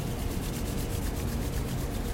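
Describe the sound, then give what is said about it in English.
Palms rubbed together as fast as possible, making a rapid, steady rasping friction with quick even strokes and no talk. “As your palms come together and your eyes are closed, rub your hands together as fast as you possibly can.”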